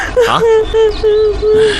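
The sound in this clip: A person cries in a wailing, sobbing voice: five drawn-out, tonal cries in a row with short catches of breath between them, loud and alone.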